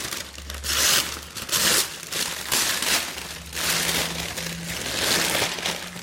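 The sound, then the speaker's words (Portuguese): Paper being crumpled and torn: many rough crinkling, rustling bursts in uneven succession, fairly loud and continuous, with no talk. “desculpem aqui o barulho do papel, trazer um objeto, eu pensei, nunca tinha pensado muito sobre isso, confesso. Então, o que é que eu vou rasgar, ok?”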